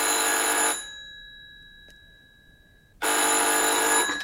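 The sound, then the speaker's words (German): A telephone bell rings twice in loud, buzzing electric bursts, separated by a pause of a couple of seconds in which faint tones linger. “Gleich klingelt draußen das Telefon.”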